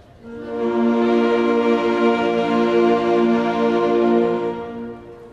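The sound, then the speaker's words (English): A group of alto saxophones plays together, holding one full, loud, sustained chord that is rich in harmonics and lasts about five seconds before tapering off. “And the alto saxophones, when they play together, they sound like this.”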